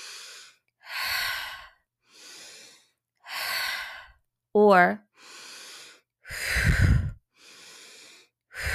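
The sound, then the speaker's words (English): Breathwork pattern of repeated inhales through the nose and exhales out through the mouth, several airy breaths in a steady alternating rhythm with short pauses between them and a single spoken word midway. “As you're doing this breath pattern, okay, and again, in through the nose, out through the mouth, it can be an open mouth or a pierced lip, closed mouth. So it sounds like this.”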